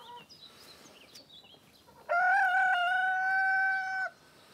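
Hens brooding on eggs give faint, soft clucks, then one loud, drawn-out call held for about two seconds at a fairly steady pitch before it stops abruptly.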